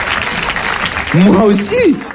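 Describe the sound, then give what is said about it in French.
An audience applauds with a dense, crackling patter of clapping for about a second. A single voice then speaks over the tail of the clapping. “Ils applaudissent, bah oui.”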